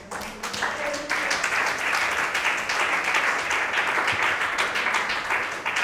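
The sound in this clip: Audience applause at an evening church gathering: a dense, steady roar of many clapping hands that grows louder after the first second and then holds strong and even to the end.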